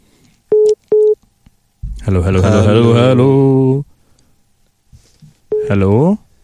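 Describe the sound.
Telephone line tones as a caller is connected to a call-in phone line: two short beeps, then a sustained voice, then another brief tone followed by more speech.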